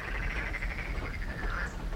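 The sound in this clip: Small frogs croak in a brook beside an old water mill. A faint, continuous chorus of quick trilling pulses plays with no voices.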